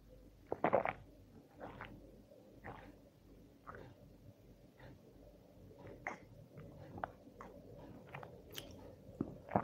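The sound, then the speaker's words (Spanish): Someone sipping a soft drink makes quiet, wet mouth sounds: a few slurps, swallows and small clicks, one louder slurp near the start, over a low rumbling background with no talking. “si me permiten, voy a beber un poquito de refresco.”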